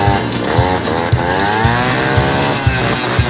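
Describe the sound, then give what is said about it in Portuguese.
A jet ski engine runs loud and raspy, its pitch wavering up and down, with dull low thumps recurring at fairly regular intervals beneath the motor's drone. “Tô andando de jet ski. Escuta o barulho aí, ó.”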